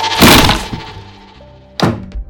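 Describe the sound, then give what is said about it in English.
A bed gives way with a loud crash as someone falls through it: a heavy crunching thud, then after a pause a sharper knock and a lighter one. “My bed creaks, and then it crashes as I fall through it.”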